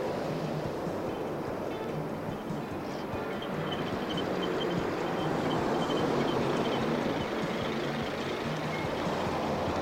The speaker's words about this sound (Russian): Улица. По дороге едут автомобили.